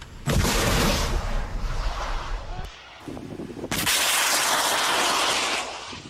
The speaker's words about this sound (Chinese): 实弹射击暨天马操演任务，是由陆军联兵584旅反甲排官兵单纲依序执行脱式 2A 飞弹监测射击以及脱式 2B 飞弹的验证射击。 发射喽！